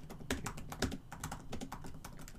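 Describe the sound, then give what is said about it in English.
Typing on a computer keyboard, heard as faint, quick, irregular keystroke clicks in a steady stream. “I don't type like that. I'm still a pointer typer”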